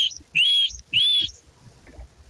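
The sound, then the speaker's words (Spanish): A person gives a sharp whistled signal call: two loud, shrill notes, each sweeping upward in pitch, separated by a brief gap and followed by faint background sounds. “Este es el chiflido, él me conoce.”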